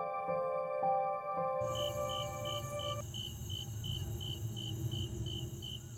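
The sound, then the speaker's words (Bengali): Crickets chirp at dusk in a high, rapidly pulsing trill that begins partway in. The chirping stays steady and clear until the end. “ধীরে ধীরে সন্ধ্যা নামল, ঝিঝি ডাকছে।”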